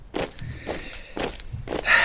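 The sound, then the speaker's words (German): Marching footsteps in lockstep: four heavy, evenly spaced steps in a steady rhythm, fairly loud, with no voices. “Marschschritt, Gleichschritt.”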